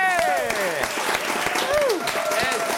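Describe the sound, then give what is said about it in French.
An audience applauds with dense, continuous clapping that stays loud throughout. Voices cheer and call out over the clapping. “Du bruit pour Félix, s'il vous plaît, mesdames et messieurs.”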